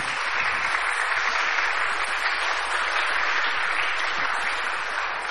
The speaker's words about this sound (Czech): Myslím, že se vůbec nemusíte bát zatleskat. Někdo tam měl takový pokus někde.